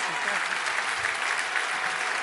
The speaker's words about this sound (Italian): Un grandissimo applauso a Eugenia Rechi.